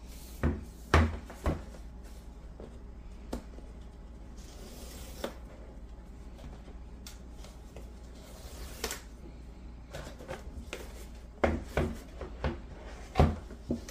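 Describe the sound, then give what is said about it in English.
Cardboard scrapes softly and a few sharp knocks and clicks ring out as the box of a beige Samsung Galaxy Tab S9 is opened, the quiet rubbing broken by scattered taps. “Now I got this device in beige. Let me just pop this box open.”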